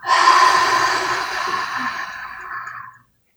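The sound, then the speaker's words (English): A deep grounding breath taken during a breathing exercise: one long, airy, breathy rush of air that holds steady for about three seconds before cutting off. “I like to start all my sessions by taking three deep grounding breaths. So inhale, exhale,”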